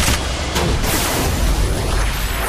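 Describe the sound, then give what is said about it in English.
Machine gun fire from a new enemy in a video game: a dense, continuous stream of booming, rattling shots that stays loud and even throughout. “Machine gun. I think it moves around, takes more shots to blow up.”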